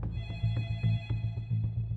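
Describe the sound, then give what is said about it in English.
A telephone rings with a bright, metallic bell tone that pulses in a fast repeating rhythm, fairly loud and alone, with a sustained high ringing above the beats. “35-year-old Emery LeHue and his family get a phone call.”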